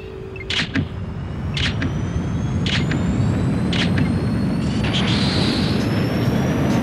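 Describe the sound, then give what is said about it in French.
Spaceship photon thrusters fire in a sci-fi scene as a steady, loud roar with a few sharp hissing bursts repeating at regular intervals, while thin whining tones climb slowly in pitch throughout. “Mise à feu des propulseurs à photons de 1 à 4. Maintenant”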